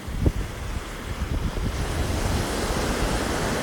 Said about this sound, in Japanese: 今裸足で歩いてます砂浜気持ちいい